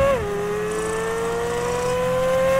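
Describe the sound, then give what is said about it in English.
Corvette flat-plane crank V8 engine revving, a smooth, strongly tonal drone that dips briefly at the start, then holds steady and climbs gently in pitch, loud and alone. “here's a quick clip of what the flat plane crank sounds like in the Corvette. And you'll hear it again. If you've ever heard a V8 Ferrari, I mean, kind of sounds like the same thing.”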